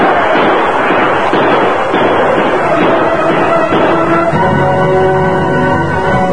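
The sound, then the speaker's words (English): Gunfire as cavalry troopers open fire on outlaws and Sioux warriors taking cover behind boulders: a loud, dense, continuous barrage where individual shots blur together, with no talk. “Quickly, the outlaws and the Sioux dismounted and took cover as the troopers opened fire.”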